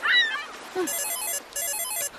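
A mobile phone ringtone plays in two bright, repeating electronic bursts of tones, with a short rising chirp just before them. It is fairly loud and heard alone, with no talking.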